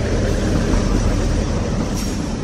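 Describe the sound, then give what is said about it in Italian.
A train arriving at the old Gorizia station, now Nova Gorica, gives a continuous broad rumbling roar with a faint rail clatter. The loudness stays even throughout and no one speaks. “Eccolo là, il treno che arriva.”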